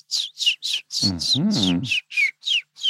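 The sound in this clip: Whistled imitation of a willow warbler's song: many short, bright, downward-sliding whistled notes in a steady rhythm. A voice briefly sounds beneath the middle notes.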